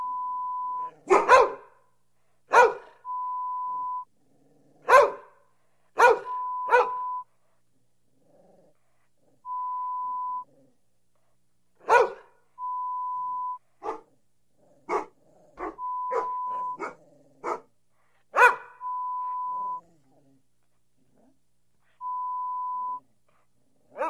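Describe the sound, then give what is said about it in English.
Dogs bark in many loud, irregular bursts for a home-security deterrent recording, with short steady electronic beep tones sounding in the gaps between the barks. “Play this hour-long recording on repeat play when you leave home and create the impression that you keep dogs inside your home.”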